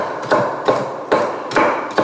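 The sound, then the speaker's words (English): A knife chops walnuts on a board for a salad, with five sharp, evenly spaced cuts, each a crisp knock followed by a short rattle of nut pieces. “And some walnuts. Let's chop these up.”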